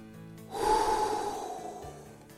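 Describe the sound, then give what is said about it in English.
A deep breath is taken before a prayer: one long, audible, airy inhale lasting over a second, soft and alone, with no talk over it. “Let's take a breath and have a prayer.”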